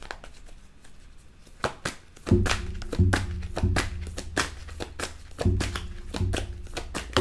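Tarot cards being drawn and laid down for a reading: many crisp slaps and taps in an uneven rhythm, some with soft low thumps, heard alone without talk.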